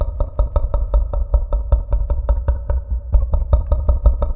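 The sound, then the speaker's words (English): A voice imitates the creature Jean Jacket's sonar call, made with a microphone in the mouth: a steady, rapid train of deep, glottal clicks, evenly spaced and loud, with a brief stumble partway through. “That sound is the kind of sonar location that Jean Jacket uses to scout out the prey.”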